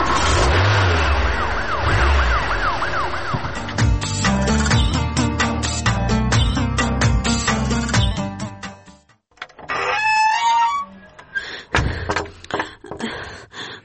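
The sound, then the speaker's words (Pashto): Car engine revving loudly and pulling away, a sustained rough roar that cuts off abruptly, followed by a few sharp knocks and clatters. “اوس خبرې پرېږدئ، پورته شئ موټر ته. موټر ته حرکت ورکړه.”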